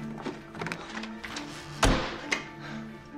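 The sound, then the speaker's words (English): A cabinet door under a kitchen sink is opened: light taps and clicks, then a firm, loud thud near the middle and a smaller knock after it. “She looks around the kitchen and opens a cabinet under the kitchen sink.”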